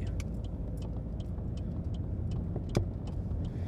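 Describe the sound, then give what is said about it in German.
A car engine climbing a steep 18 percent uphill and shifting down from third to second gear into a bend. A low, fairly faint steady rumble carries one short knock near the end. “Dritter Gang berghoch, 18 Prozent. So. Zweiter Gang runter, Kurve.”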